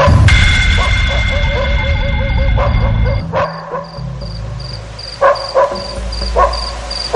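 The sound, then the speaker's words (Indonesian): A pack of eight dogs at a nearby house bark noisily: sustained overlapping yelps and whining yips at first, then a few sharp, loud barks with short pauses between them. “tak berapa lama disusul bunyi riuh suara gonggongan dari anjing-anjing itu”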